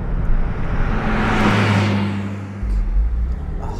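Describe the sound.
A new car's engine running with a beefy tone: a low, steady rumble under a broad whooshing swell that peaks midway. The low note shifts and settles again near the end.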